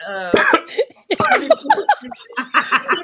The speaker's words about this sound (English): how did you cough